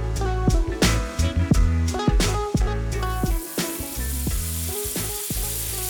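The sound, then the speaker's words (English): Onion, garlic and risotto rice frying in a pan for arancini, a continuous bright sizzle broken by many quick scraping stirs that are sharpest early on, then a steadier hiss. “So we've got in the pan now arancini. I've fried off my onion and garlic so it's nice and cooked but no colour. Added my risotto rice,”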